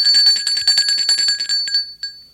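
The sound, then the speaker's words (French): A home doorbell rings on an afternoon: a loud, high, rapidly trilling ring lasting about a second and a half, followed by one short extra ring, with no voices. “Un après-midi, l'on sonne chez Nicolas.”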